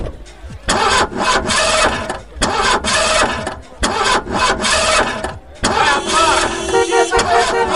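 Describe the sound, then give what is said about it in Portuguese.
A nearly 300-horsepower sports car engine starts up, like the one in Magnum. A few loud, surging bursts with brief gaps give way to a sustained running rumble. “300 cavalos. Vai de 0 a 100 em menos de 6 segundos. Aí eu não acredito, você tem uma igualzinha do Magnum. Ai meu Deus, eu sempre quis andar numa máquina dessas.”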